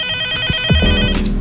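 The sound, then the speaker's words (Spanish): A telephone rings with an incoming late-night call: a steady, bright electronic ringtone sounds for about a second, then cuts off into a lower tone. “A ver, tenemos una llamada a esta hora de la noche, siendo las 11:36.”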